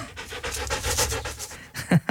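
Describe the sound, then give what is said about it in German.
Rapid, rhythmic panting from a dog in a parsonage: steady breathy pulses, then a few louder, lower huffs near the end. “Ein Hund, der Herr Pfarrer ist.”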